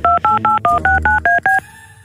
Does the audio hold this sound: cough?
no